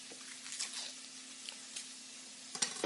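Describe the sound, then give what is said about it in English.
Mushrooms frying in a pan with olive oil and butter give a soft, continuous sizzle with scattered faint crackles and pops, quiet and without talk. “So now I'm going to add the mushrooms to the pan with some olive oil and, of course, butter.”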